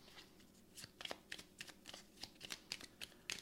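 Tarot cards being shuffled for a reading, a faint run of many quick riffling, flicking bursts in an uneven rhythm, with no talking.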